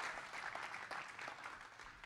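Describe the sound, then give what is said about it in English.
An audience claps in steady, continuous applause to welcome a speaker onto a stage, a faint, dense patter with no voices standing out. “why don't we get Dr. Taz a fantastic round of applause as we invite him”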